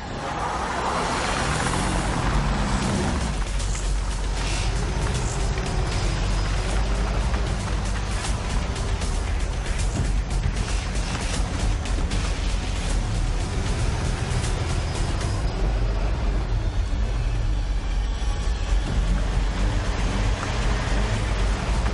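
A car driving with a loud, steady roar of engine and road noise that fills the whole stretch without a break.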